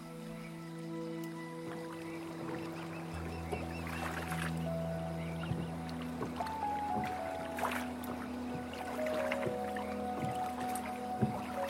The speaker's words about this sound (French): Au fur et à mesure où vous avancez, vous entendez le bruit de l'eau s'écraser à la surface de cette embarcation.